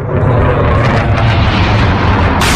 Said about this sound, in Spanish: Este es el sonido del momento captado por uno de los testigos en el que un caza F-16 lanza una bomba sobre el palacio presidencial en Ankara, en la capital de Turquía.